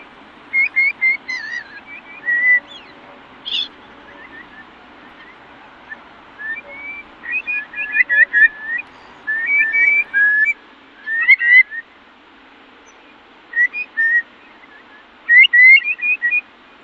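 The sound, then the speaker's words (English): Birdsong at a wetland nature reserve in County Cork, Ireland: scattered bright whistles and quick chirps come in short bursts over a faint, steady low hum. “Lovely sounds from Harper's Island Wetlands Nature Reserve, a place you're very familiar with”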